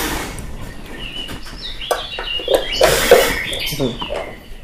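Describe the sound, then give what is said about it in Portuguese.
Birds chirp outdoors in faint, high twitters scattered under people talking, the calls surfacing most clearly midway through. “Estão a ouvir os pássaros agora e há bocado não estavam a ouvir”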